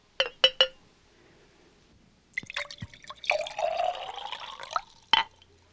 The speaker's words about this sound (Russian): Возьми эту чашу. Это моя чаша. Слушаюсь, ваше величество. А теперь наполни ее вином.